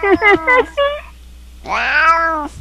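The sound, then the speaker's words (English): Cat meowing in a video game: a few short calls, then one long, loud, drawn-out meow. “Oh, hello, kitty. You're part of the video game, too.”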